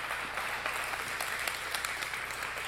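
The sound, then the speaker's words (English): A church audience claps during a morning service, giving a hand in praise of God; the applause is a moderate, continuous patter of many hands with a few sharper claps standing out. “Let's give God a hand this morning.”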